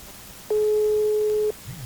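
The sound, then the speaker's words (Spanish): A single steady, mid-pitched telephone tone lasts about one second as a call is placed to a call-in line. The background stays quiet before and after the tone. “Bájale a tu radio, ahí va el segundo intento. ¡Tí! Ahí estamos, marcando.”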